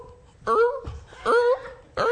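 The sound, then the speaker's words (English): A voice imitates a rabid dog with three loud, strained bursts of howling, whining moans, each wavering in pitch and separated by brief pauses. “And if you see that dog going,”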